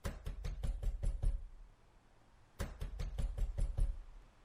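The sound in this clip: Knocking on a room door: a fist raps in two rapid bursts of about seven hard knocks each, separated by a brief pause, sharp and clear with nothing else heard.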